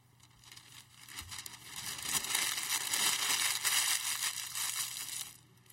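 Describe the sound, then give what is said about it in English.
Paper scroll being cut and burned in a brazier gives a crackling, crumpling rustle that starts faint and swells into dense, loud crackle through the middle before thinning out at the end. “Burn! Burn! Cut it! Cut it! Burn! He does this until the entire scroll is consumed in the brazier.”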